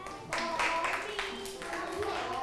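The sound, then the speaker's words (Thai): Students in a classroom clap for a classmate, a faint patter of scattered claps that swells briefly and then thins out, with voices talking over it. “ต่อไปสแตมป์ปรบมือให้สแตมป์หน่อยค่ะ”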